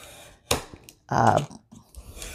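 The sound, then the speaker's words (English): A fresh blade slicing through about 40 pages of a book block during hardcover bookbinding: a sharp click, then a few rough scraping cuts, one longer and louder rasp among them, separated by short pauses. “Now I should have a fresh blade here. So if you have a fresh blade, shouldn't take so long. I'm going through what, 40 pages?”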